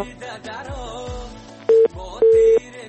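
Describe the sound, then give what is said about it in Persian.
Disconnection tone as a phone call drops: two steady, mid-pitched beeps, the second clearly longer, ring out loudly after a stretch of softer, mixed sound. “متاسفانه که تماس آقای غفوری قطع شد.”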